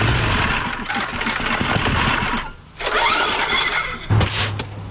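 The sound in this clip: An engine starting after a push start: a dense, rattling, churning mechanical noise dips into a brief lull, then the engine catches and settles into a low, steady idle near the end.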